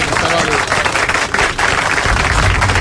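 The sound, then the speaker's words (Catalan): Audience applause forms a thick, steady wash of clapping that lasts nearly three seconds, with voices mixed in beneath it. “Doncs un aplaudiment perquè ha estat”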